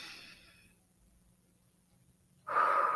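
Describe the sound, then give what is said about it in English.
Deep breathing during a guided relaxation: a soft, airy breath fades out over the first moment, quiet follows, then a louder, fuller breath rushes in near the end. “let us take a deep breath. Again.”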